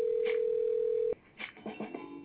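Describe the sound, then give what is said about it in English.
A telephone ringback tone sounds on an outgoing call: one steady, single-pitch tone holds for about a second and then cuts off abruptly, followed by quieter scattered sounds. “I'm calling my motherfucker people back up in Minnesota, man.”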